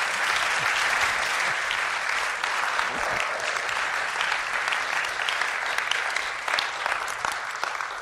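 A church audience claps in warm welcome for a missionary, the applause dense, steady and sustained from start to finish with no letup.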